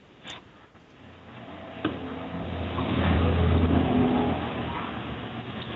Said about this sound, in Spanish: Ese sonido de carros no es mío, no es de aquí.